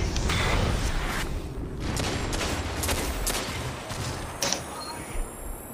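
Sniper-rifle fire in a video game sits within a dense, steady wash of gunfire. A few sharper cracks stand out near the end.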